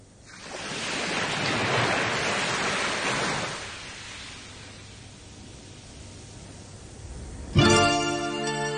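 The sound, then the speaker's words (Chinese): Ocean waves wash onto a sandy beach: a broad rushing surge swells, then recedes into a softer hiss as the water draws back, before music cuts in abruptly near the end. “听下啲海浪声有咩感觉？”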